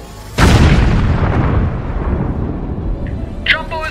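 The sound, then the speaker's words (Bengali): Loud explosion as a torpedo strikes a diesel-laden tanker: a sudden, heavy blast that gives way to a long, rumbling roar slowly fading away. “কান ফাটানো একটা বিস্ফোরণে কেঁপে উঠল উভয় পক্ষের সৈনিকেরা।”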